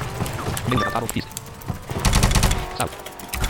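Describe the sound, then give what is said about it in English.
Video game gunfire from Grand Theft Auto comes in rapid bursts of automatic shots, loud and irregular, with heavier clusters in the second half. People talk over it. “Oh, there's someone playing Grand Theft Auto over here.”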